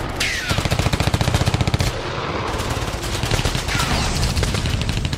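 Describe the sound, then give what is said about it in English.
Soldiers fire light machine guns in short bursts during the battle for Tiger Hill in the Kargil War. A loud, dense rattle of rapid shots stops briefly, then sustained firing resumes. “Indian soldiers, barely acclimatized with the battlefield, crouched and fired short bursts from their light machine guns.”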